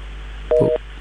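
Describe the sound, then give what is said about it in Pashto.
A phone call drops to a busy tone, heard as one short, steady electronic beep over a constant low hum and hiss. “ښه له دوی سره مو اړیکه پرې شوه”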